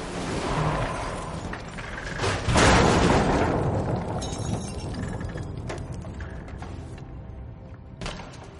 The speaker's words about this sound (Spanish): Después se mete en el coche para empujarle fuera de él y él se queda dentro cuando Vázquez estalla la furgoneta.